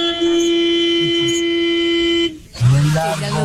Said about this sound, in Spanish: Es un pito que suena fuerte, un pito oiga largo.